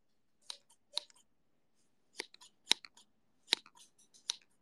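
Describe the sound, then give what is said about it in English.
Scissors cutting hair: a run of crisp, short snips at an irregular pace, some single and some in quick small clusters, with quiet gaps between them and no voices. “I'm cutting your hair.”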